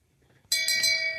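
A single bright strike of a bell follows a near-silent moment, then a high, shimmering ring that holds steady and only slowly fades.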